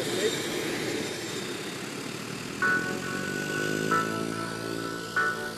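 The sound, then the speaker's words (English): An airplane engine drones steadily as the aircraft takes off from an airfield beside a camp, with a tonal whine over the hum and a few brief louder surges. “Right, wheels up. It's flying out over the airfields, over the camp, over the shrubs”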